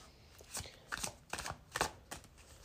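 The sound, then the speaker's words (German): Tarot cards are shuffled by hand, with several cards flying out at once. A few quiet, crisp papery bursts of riffling and slapping come in an uneven rhythm. “Und dann fliegen gleich mehrere Karten auf einmal.”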